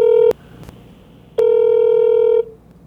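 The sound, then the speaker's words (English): Telephone tones on a call that ends up forwarded to voicemail: two flat, mid-pitched electronic beeps, a short one followed after a pause by a longer one, with faint clicks between and no talk. “Your call has been forwarded to a voicemail service that has not been... I try to contact my friends in the United States”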